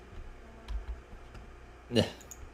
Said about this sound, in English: I think my keyboard's failing me. Just delete it and just retype it.